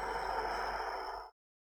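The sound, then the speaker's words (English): A deep exhale through the mouth during a centering breathing exercise, heard as a steady, breathy rush of air lasting just over a second before cutting off abruptly into silence. “Take another nice deep inhale through your nose. And exhale through your mouth.”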